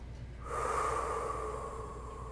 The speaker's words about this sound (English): Take a couple deep breaths.